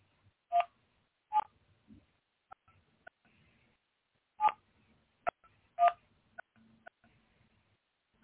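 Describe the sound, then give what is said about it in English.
Telephone keypad tones from entering a PIN on a phone call-in line, with a few clear beeps spaced irregularly among small faint clicks, and no talking. “Please enter your PIN. When finished, press the pound key.”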